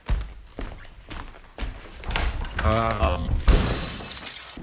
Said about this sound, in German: Ich muss den Sessel durch das Fenster werfen.